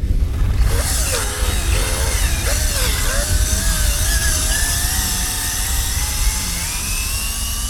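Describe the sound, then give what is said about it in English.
A drill-like clamp twists off a testicle during the castration of an anesthetized stud colt: a loud, continuous mechanical whine wavers at first, then climbs steadily in pitch over a dense, rumbling hum. “that's the sound of the drill-like clamp twisting off one testicle.”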